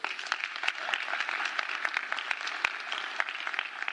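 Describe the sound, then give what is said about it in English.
Audience applause made of many overlapping claps, forming a dense, steady patter that stays fairly soft throughout, with no single clap standing out. “it is so easy to get an applause here.”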